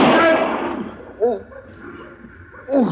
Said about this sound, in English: did you shoot him in the arm of purpose?